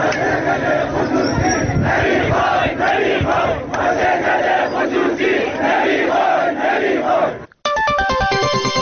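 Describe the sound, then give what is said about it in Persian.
Factory workers protesting their company's privatization chant loudly in unison, with a rhythmic roar of many voices. The chanting breaks off abruptly in a short gap, followed by a run of electronic tonal beeps. “سایت باشگاه خبرنگاران جوان نیز در این مورد فیلمی از اعتراض کارگران این شرکت به خصوصی سازی این واحد تولیدی را پخش کرد که بخشی از آن را می‌شنوید.”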